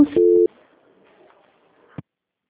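A telephone tone after a dropped call: one short, steady electronic beep at the start, then near silence with a faint murmur and a sharp click near the end.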